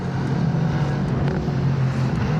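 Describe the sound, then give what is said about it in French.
Car accelerating out of a hairpin bend with its traction control turned down: a steady, fairly loud low engine drone with rough mechanical texture that holds throughout, with no voices. “J'accélère. Plus de patinage, regardez, écoutez. Ça bouge beaucoup plus.”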